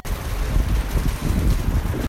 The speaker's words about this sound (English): Because it has been storming, it has been nasty out all day. So much, in fact, that this was me leaving the gym earlier this morning.